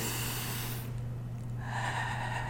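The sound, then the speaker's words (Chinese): Slow, deep breathing in and out, shown as a rhythmic calming technique for children: soft, airy hissing that shifts character partway through, over a steady low hum, with no voices. “这样子，就是啊，一吸一吐，它是有一个节奏的”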